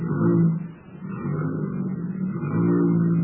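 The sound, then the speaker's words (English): A car motor runs steadily as a low, even rumble, dipping briefly before settling back into a constant hum. “Now, just step inside here and see how the motor sounds.”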